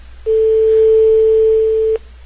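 Telephone ringback tone on an outgoing call: a single steady, even tone holds for under two seconds and then stops, with nothing else heard around it.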